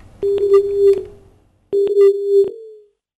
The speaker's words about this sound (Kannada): ಕರೆ ಕಡಿತವಾಗಿದೆ.